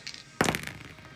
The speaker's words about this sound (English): and he conjures up two more Eldritch Blasts.